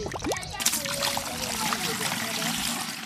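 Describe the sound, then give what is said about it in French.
Water flows from a fountain into a yellow 25-litre jerrycan brought by children, a steady trickling and splashing stream that runs throughout while a voice talks over it. “L'eau coule de la fontaine dans le bidon jaune de 25 litres apporté par des enfants.”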